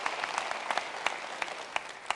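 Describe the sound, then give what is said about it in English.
Crowd applause greets a new church campus on its move-in day in a brand-new building. Dense, steady clapping runs throughout, with sharp individual claps standing out. No voices are heard. “Let's give it up for those guys.”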